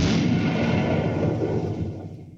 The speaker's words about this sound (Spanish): se apoya en el cajero automático para luego encender la mecha. Se retira del lugar, pero antes confirma que el plan salga a la perfección. Con la bomba encendida pasan más de 2 minutos en los que este cajero automático quedó solo.